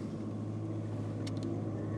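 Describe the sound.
Low, steady road and engine rumble inside a moving car, faint and even throughout, with no talking.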